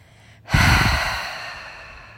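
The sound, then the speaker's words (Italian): A single slow exhale through the mouth during a breathing exercise, a soft breathy rush that begins abruptly and fades gradually over about a second and a half. “Inspira lentamente dal naso. Trattieni per qualche istante. E poi espira dalla bocca.”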